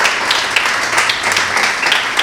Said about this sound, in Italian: Allora vi chiedo di accogliere con un bel applauso Vittoria Gozzi, consigliera di amministrazione di Duferco, grazie di essere con noi.